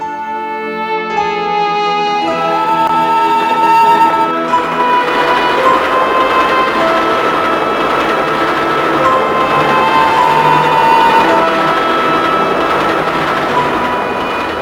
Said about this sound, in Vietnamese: Tiếng máy chạy đều đều, chẳng mấy chốc đã ru ngủ những đứa trẻ.